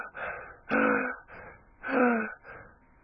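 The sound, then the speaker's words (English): A voice imitates a woman blowing her breath out very hard: two strong, breathy, moaning exhalations stand out among a few softer puffs, each pushed out with a strained, wheezy tone. “And then she went away, and walked across to me, and blowed her breath very hard, like this.”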